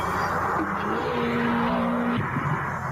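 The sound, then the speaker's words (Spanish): Seat Ibiza Cupra rally car racing: a steady engine drone with a sustained whining note that cuts off abruptly about two-thirds through. A rough lower engine rumble carries on afterwards, with no voices. “¿No había terminado ya el rally? Debe ser un Cupra. Cupra, el Ibiza que viene de los rallies.”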